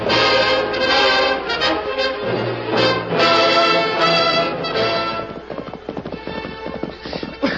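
Horses gallop as riders race ahead of outlaws, rapid drumming hoofbeats under loud dramatic music that thins in the second half, leaving the pounding hooves more exposed.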